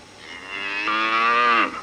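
A cow lets out a single long moo, rich and harmonic, swelling in loudness before its pitch drops and the call tapers off at the end.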